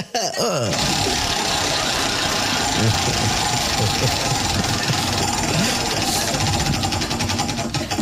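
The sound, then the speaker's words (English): A prize wheel spinning during a game segment, giving off a rapid, dense run of mechanical ticking that stays loud and even for about eight seconds after a short rattling start. “get up here and spin that wheel”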